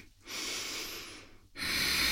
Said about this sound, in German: Drück dich mal kurz zurück ins Kind. Ein, zwei Atemzüge hier bleiben